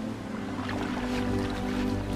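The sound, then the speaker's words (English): Ocean waves wash onto a beach at night where leatherback turtles come ashore to nest. The surf is a soft, continuous rushing over a low steady hum, fairly faint throughout. “The nighttime waves wash over a turtle making its way up the beach.”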